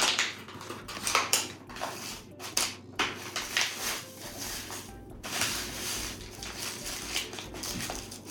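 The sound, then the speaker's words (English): A box of Jiffy corn muffin mix is emptied into a bowl, giving faint papery rustling and soft pouring. A few short bursts of crinkly noise stand out over a quiet background. “Next, we need the Jiffy corn muffin mix, the whole thing.”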